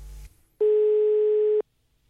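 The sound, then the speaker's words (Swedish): A telephone line tone heard while a call is placed: a single steady, mid-pitched tone lasting about a second, after a brief low rumble, then silence. “Vi ringer upp och gratulerar Lars-Erik Lindgren.”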